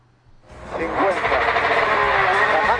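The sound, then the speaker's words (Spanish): Loud engine roar inside a rally car during the Ourense rally. It swells quickly, then holds a dense, steady drone with a voice speaking over it throughout. “Esto ya lo habrán visto y oído multitud de veces, pero nosotros lo vamos a escuchar ahora. El interior del coche de Chevy Pons en este rally de Ourense.”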